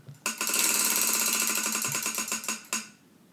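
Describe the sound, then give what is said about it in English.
A prize wheel spins in a game, its clicker making a dense, buzzing rattle of rapid ticks that breaks into a few slower, spaced clicks before stopping. “We're going to spin the wheel. Here we go. We're going to spin the wheel.”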